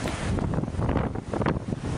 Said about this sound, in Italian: Il suono in sottofondo che sentite è quello dell'uragano Sandy.